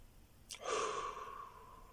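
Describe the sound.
A single deep breath drawn in during a guided mindfulness breathing exercise: one soft, slow, airy inhale that swells and then tapers off, heard alone in quiet surroundings.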